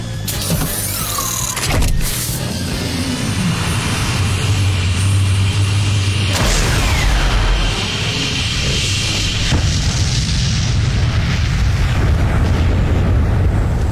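A missile salvo fires from a ship and explodes in a dense, roaring barrage. A sharp blast comes early, and the heavy rumble shifts in character partway through, staying loud and continuous throughout.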